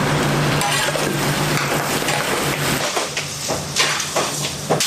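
Meat stir-fried in a wok in freshly caramelised sugar with no water added gives a broad, steady sizzling hiss, with intermittent scraping strokes of the utensil toward the end.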